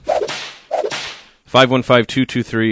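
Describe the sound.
A sound effect of two sharp whip cracks, each a noisy snap with a quick swish tail, spaced well apart. Brief tonal, voice-like sounds follow.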